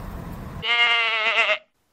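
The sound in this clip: A goat bleats once, a single wavering, nasal call of about a second with strong harmonics, following a brief stretch of low rumbling noise.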